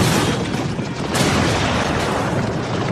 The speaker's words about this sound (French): L'enfer, c'est l'artillerie. Les obus font des ravages.